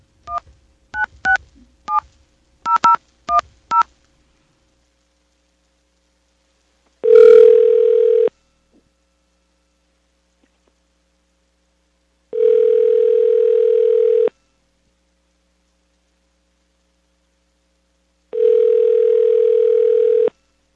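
Touch-tone dialing on a call to a business phone line: a quick series of short beeps, then silence, then three long, steady ring tones separated by pauses.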